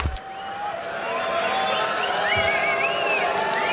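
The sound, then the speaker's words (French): Rock concert audience waiting in the dark before the band takes the stage: a steady murmur of crowd chatter and scattered calls, with several long, wavering whistles rising above it. “Et vous entendez le public qui patiente ici.”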